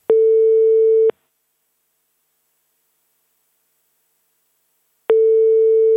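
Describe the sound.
Telephone ringback tone sounds while someone is being phoned: two steady, mid-pitched tones, each lasting about a second, separated by a long silence. The second tone is cut off at the end, and no one talks.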